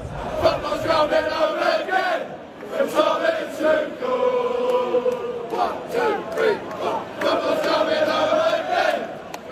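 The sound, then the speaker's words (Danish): English football fans sing together before a World Cup semi-final against Argentina, a large crowd chorus rising and falling in melodic phrases with brief dips between lines. “De engelske fans, de drømmer om pokalen, så fodbold endelig kan bringes hjem, som de synger her.”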